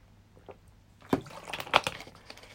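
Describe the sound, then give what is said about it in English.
Water being drunk, with soft sloshing and swallowing sounds that come in a few irregular bursts, growing denser and louder toward the end. “One second, let me drink this water.”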